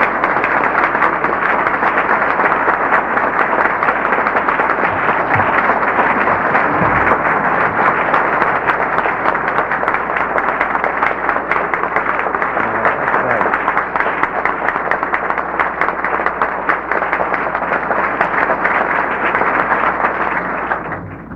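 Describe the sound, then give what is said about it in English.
Loud, dense audience applause welcomes Steve Allen at Dana College. It holds steady for about twenty seconds and thins slightly at the very end. “Will you join me in giving a rousing Dana College welcome to Steve Allen?”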